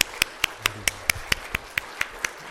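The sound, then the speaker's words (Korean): Rhythmic clapping from a church audience welcoming children and youth: eleven sharp, evenly spaced claps land in unison at a steady brisk tempo, with no voices over them. “우리 박수 한번 할까요?”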